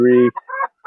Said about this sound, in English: 6 hens in this box on the left, and there's one standing outside, very proud, squawking.